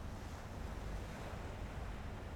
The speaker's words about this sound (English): Then you walk to the edge of the sea, where the waves tumble into foamy wavelets that lap the shore.